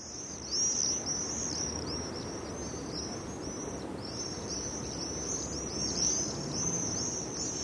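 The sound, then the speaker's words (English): Swift calling in flight: shrill, high-pitched screaming trills repeat almost without break over a low, steady rumble of background noise. “So that's the sound of a swift, a bird that's always in flight.”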